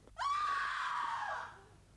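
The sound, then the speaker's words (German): Women screaming: a loud, high, sustained cry that starts abruptly, holds steady for over a second, then fades out, heard alone with no speech. “Was für Geschrei ist das? Geschrei von Weibern”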